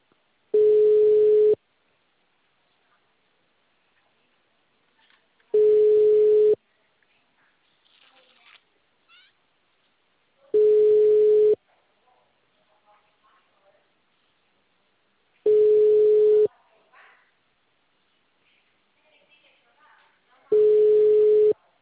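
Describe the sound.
Telephone line tones sound as a caller dials again: five steady mid-pitched beeps, each about a second long, repeat at roughly five-second intervals, with faint rustling between them.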